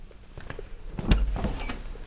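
A door being opened into a shop owner's office: a brief mechanical click and scrape with a dull low thump near the middle, against quiet background hiss.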